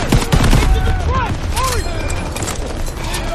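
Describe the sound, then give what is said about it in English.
M1 Garand rifle fire rings out in a video game battle: rapid, loud shots within a chaotic, dense mix, with voices present alongside the gunfire. “just love that that ping of an M1 Garand, and that that is something that like since that first Medal of Honor, that that's what put it in my head.”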